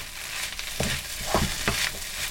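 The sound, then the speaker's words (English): Sauce sizzles in a hot pan with pak choy stalks, a steady hissing fry marked by a few louder bursts of crackle as it is stirred. “Sauce is going in the pan. And then add your sauce from the other bowl.”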